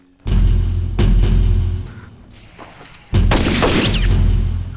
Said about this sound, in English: He puts the shotgun to his chin and blasts out his brains.